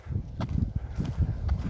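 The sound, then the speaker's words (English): Footsteps of someone walking around outdoors in the open on a sunny day: a loose series of soft, dull thuds over steady low rumbling background noise. “this is me, you know, just walking around out in the open during a nice sunny day.”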